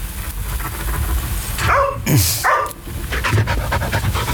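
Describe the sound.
A dog panting in quick, steady, rhythmic breaths throughout, moderately loud, with a brief louder huff near the middle.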